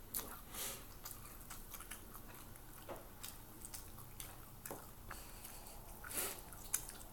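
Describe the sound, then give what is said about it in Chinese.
Soft, wet chewing of a big bite of kiwi fruit. Faint squishy bites and mouth sounds repeat irregularly with a few small clicks, and no talking. “你吃个猕猴桃吧。好大一口。”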